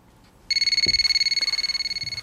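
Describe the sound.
Electronic telephone ringtone as a call comes in, a loud, rapid warbling trill of many quick pulses that starts abruptly and continues steadily with no voices.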